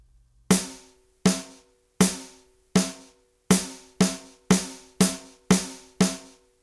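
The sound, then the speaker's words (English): A drum plays ten resonant, evenly struck hits, each decaying quickly: four slower eighth-note strokes followed by six faster strokes grouped as two eighth-note triplets, with a clear step up in pace partway through. “We're going to play two sets of eighth notes and then two eighth note triplets”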